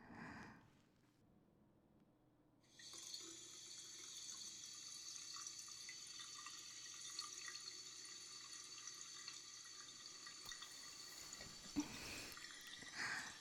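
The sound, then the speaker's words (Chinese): Bath water runs from a tap in a steady, hissing rush that begins a few seconds in after a quiet start and continues unbroken to the end, with faint splashy flickers on top. “你去帮我放洗澡水好不好？姐姐想洗个澡。”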